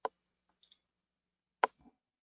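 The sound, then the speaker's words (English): Mouse clicks on a website's download link for a Word document: two sharp, crisp clicks about a second and a half apart, with a couple of faint small ticks between them, in otherwise near silence. “on the website, I click the download Word document link.”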